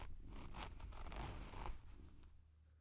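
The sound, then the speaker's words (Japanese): A trouser zipper being opened gives a faint, raspy run of fine ticking teeth that lasts under two seconds before dropping away into quiet. “ズボンのファスナーを開けて”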